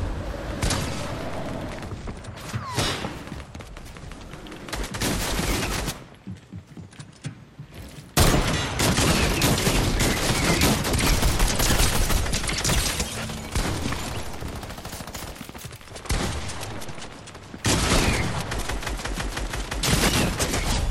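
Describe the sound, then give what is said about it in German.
Rapid gunfire from an alien weapon in the video game Fortnite crackles in sustained, fairly quiet bursts. Brief lulls break the fire around the middle and near the end. “Na, diese Alien-Waffe, die ist immer anders stark geworden.”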